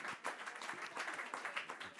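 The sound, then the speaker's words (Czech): Audience applause for a volunteer at a magic show: brief, fairly faint clapping from a crowd, dense and steady throughout. “Zatleskáme Martině, přátelé.”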